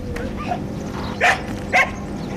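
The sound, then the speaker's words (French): Sheepdog barking at a goat farm: two short, loud barks spaced about half a second apart, each rising sharply above a steady low background hum. “Alors, on est accueilli par le chien de berger qui a très envie de faire la fête.”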